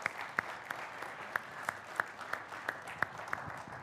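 A church audience applauding: a fairly faint, steady patter of clapping with a few sharper individual claps standing out at irregular intervals.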